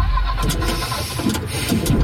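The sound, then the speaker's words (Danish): A leasing car's engine fails to start, with the starter cranking in a continuous grinding churn at a steady, fairly loud level. “Lad os sige, at din leasingbil bryder sammen midt på Motorring 3.”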